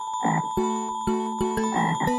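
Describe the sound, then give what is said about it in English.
Frog croaking, a few short raspy croaks repeating at a steady pace over sustained tuneful musical tones. “Listen! What's that? It's a frog!”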